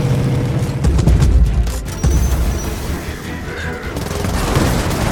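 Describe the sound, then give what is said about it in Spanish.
Gunfire and explosions fill a battle cutscene from the video game Gears of War 4. A dense, continuous roar of shots runs throughout, with heavy low booming thumps rising and falling. “Menos hablar y más disparar.”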